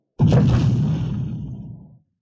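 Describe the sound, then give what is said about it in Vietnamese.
Whoosh of air torn by a figure darting swiftly through a silent tunnel: a sudden, heavy, low rushing swoosh that starts abruptly and fades out over nearly two seconds, heard alone. “thậm chí phát ra tiếng xé gió vù vù trong Dũng đạo tĩnh mịch này”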